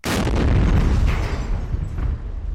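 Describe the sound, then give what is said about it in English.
Marines set off a controlled detonation of 400 pounds of IEDs, a daisy chain of bombs found on a bridge into northwestern Marja. It is one loud, deep blast that rolls into sustained rumbling and slowly fades. “The Marines detonate 400 pounds in IEDs they uncover on the bridge into northwestern Marja.”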